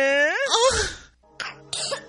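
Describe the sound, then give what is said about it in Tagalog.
A child coughs: one strained, voiced cough that rises in pitch, followed after a pause by two short, rougher coughs. “Ubo ng anak, nakababahala, baka plema.”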